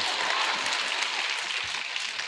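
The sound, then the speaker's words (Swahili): Audience applause for Mama Samia, a dense, loud wash of clapping that holds steady from start to finish. “haya makofi tena kwa mama samia”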